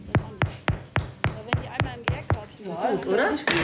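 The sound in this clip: Knuckles knock on freshly baked bread loaves to test whether they are done, a quick, steady run of hollow raps, followed by a voice talking and one last knock.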